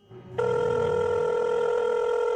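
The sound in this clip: A telephone ring starts abruptly as a loud, steady electronic tone and holds unbroken at an even level until the end.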